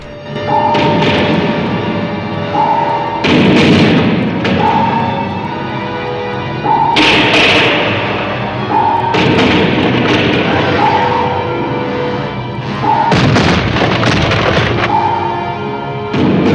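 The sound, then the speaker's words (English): A submarine is buffeted by a rockfall barrage: many heavy thuds and booms strike in irregular bursts, while a short tone recurs between the impacts. “the sub continues buffeting its way through the barrage.”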